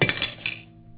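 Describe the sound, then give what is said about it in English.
A silver dish dropped, giving a bright metallic clatter of a few quick clinks that fade into a short ring. “You dropped the silver dish. Here. The silver's soft. It dents easily.”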